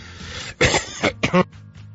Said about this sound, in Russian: Простите, закашлялся. Но это не от стресса.